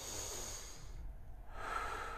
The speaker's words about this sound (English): I want you to sit there and be like, okay, and take a few deep breaths.